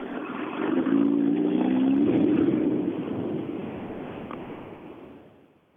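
A tuned two-wheel-drive rally car races along a stage. Its engine drone swells and climbs in pitch over the first couple of seconds, then slowly fades away, sounding muffled and with no voices.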